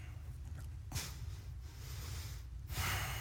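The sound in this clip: Slow deep breathing, a few long airy inhalations and exhalations, soft and low in level with no talking.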